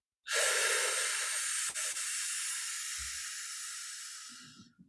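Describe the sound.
A slow breath drawn in through tight lips, part of a belly-releasing breathing exercise for calm birth preparation: one steady, breathy hiss lasting about four and a half seconds, with a brief dip partway through, then stopping.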